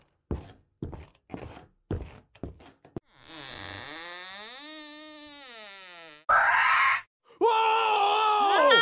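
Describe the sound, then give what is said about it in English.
Velociraptor noises coming from an attic: a run of quick thumps, then a long, loud groaning wail, followed by two harsh, rasping screeches. “That's Trudy's velociraptor.”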